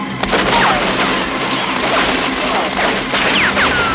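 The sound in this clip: Gunfire in a loud, continuous fusillade, dense overlapping shots merging into a sustained harsh roar with no clear gaps between them.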